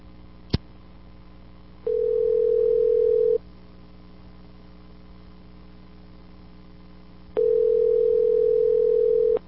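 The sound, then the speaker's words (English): Telephone line tones after a number is dialed: a sharp click, then two long steady beeps separated by a long silent gap, all over a constant low electrical hum. “I wonder whose number I dialed.”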